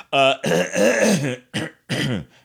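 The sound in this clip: Throat clearing from a phlegmy voice comes as four loud, rasping, voiced bursts. The second burst is the longest, and short pauses separate each push from the next.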